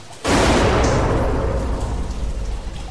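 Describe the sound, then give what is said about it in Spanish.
A gunshot inside a house: one sudden, loud blast followed by a long, rumbling roar that fades slowly. “justo al abrir la puerta oigo un disparo dentro”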